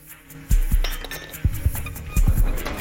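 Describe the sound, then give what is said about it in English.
A bullet dropped into an empty glass gives a few bright, sharp clinks and light rattles against the glass, each ringing briefly before fading, with no voices. “She examines it, then drops it into the empty glass.”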